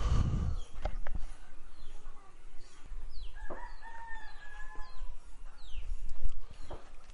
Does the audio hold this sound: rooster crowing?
yes